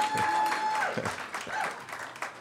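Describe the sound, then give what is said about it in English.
An excited crowd at a live basement music venue at the Des Moines Social Club makes a fairly soft, continuous wash of applause and voices. “we are live from the basement venue of the Des Moines Social Club. The crowd is very excited, as you can hear.”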